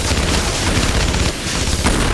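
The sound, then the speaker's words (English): Machine gun fire from soldiers in an action scene: a loud, dense barrage of gunfire with booming low end, continuous throughout with no break. “As 80 and 82 aim their machine guns, Veronica and Luke sprint for the bushes nearby.”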